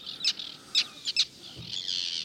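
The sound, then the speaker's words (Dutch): Arctic terns calling in a breeding colony: a few sharp, shrill, high-pitched calls in quick bursts, then a longer grating call that carries to the end. “Je zou het aan het geluid niet zeggen, maar het is toch een hele spectaculaire vogelsoort. Het is de Noordse sterren. Niet de Noorse, maar de Noordse. Dus die hoort tot de meeuwenfamilie.”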